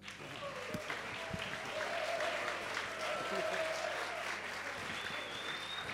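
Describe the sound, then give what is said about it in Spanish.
Applause from an audience at a live event, thick and continuous clapping that swells early and holds steady, with voices calling out through it. “¡Un aplauso!”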